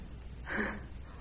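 One short, soft breath taken as part of a gentle breathing exercise, a brief airy puff rising out of quiet background noise.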